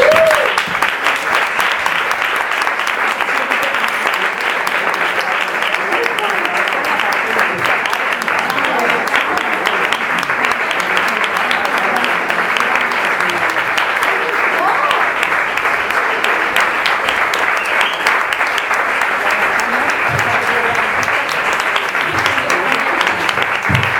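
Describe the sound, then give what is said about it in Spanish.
Loud, continuous audience applause at an evening event as the guest of honor is welcomed, with dense clapping holding steady for the whole stretch without a break. “vamos a recibir con un fuerte aplauso al gran protagonista de esta noche, que es Juan Sebastián Bollaín.”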